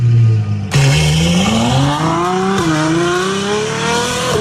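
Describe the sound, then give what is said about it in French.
A car engine revs hard, its loud note climbing steadily in pitch, dipping briefly partway through, then rising again. A lower steady tone comes just before it starts. “Alors, c'est le bruit d'une voiture.”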